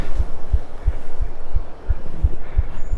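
A person's own heartbeat is recorded: nine fast, regular, low thumps over a faint steady hum.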